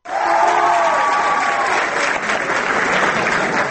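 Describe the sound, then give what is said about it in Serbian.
Applause from an audience greeting an ambassador: steady, dense clapping that starts abruptly and holds at an even, loud level throughout, with a crowd murmur mixed in. “Aplauze kojima su uputili pozdrav samom ambasadoru Dežero”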